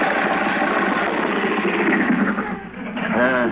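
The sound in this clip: An engine runs with a steady, rough, mid-pitched drone that dips briefly, then continues. A voice seems to come in near the end.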